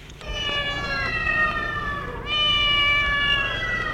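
A small grey cat meowing in two long, drawn-out, high, wailing cries, the second following right after the first. Both are loud and clear, with no voices.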